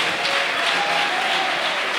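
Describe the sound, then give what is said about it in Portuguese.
A church audience applauds to welcome a pastor, an even, sustained patter of many hands at full volume for the whole moment. “Então vamos receber o guerreiro de Deus. Com as palmas, o glória a Deus e o aleluia.”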